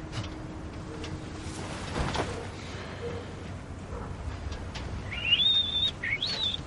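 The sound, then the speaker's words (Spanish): A young man whistles calmly while sitting in a car parked outside a shop. A short, high, clear whistled phrase of a few notes comes near the end, after a stretch of quiet background noise. “Gus silba tranquilo”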